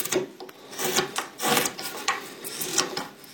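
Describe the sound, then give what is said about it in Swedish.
A knife whittles the rough outer shape of a wooden mouthpiece for a wooden horn, giving a series of dry rasping scrapes in an uneven rhythm, loud and close, with no talk. “Jag ska bara tälja fram lite grovt ytterformen på munstycket så ska man kunna provspela den här.”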